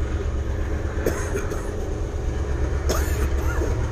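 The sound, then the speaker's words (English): A train passes outdoors behind a porch with a steady, loud, broad rumble. A couple of brief, sharp high bursts rise out of it, and no one speaks. “So if you hear a sound in the background, that's a fucking train.”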